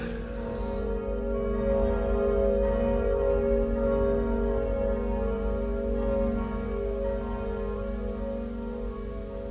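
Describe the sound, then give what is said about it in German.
Church bells ring at ten in the morning in Lisbon. They make a steady, sustained ringing with dense, humming overtones that carries on continuously and evenly throughout, without clearly separated strokes, and no voices are heard. “Die Glocken läuten schon. 10 Uhr.”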